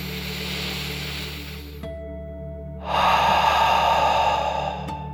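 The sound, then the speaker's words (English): A deep breath in and out during a guided relaxation for children: a soft airy inhale, a brief pause, then a louder, fuller breathy exhale, over a low steady hum. “let's take one more deep dragon breath in and out.”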